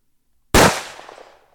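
A gunshot rings out as one sharp, loud bang that fades into a decaying, rumbling tail, with nothing else around it.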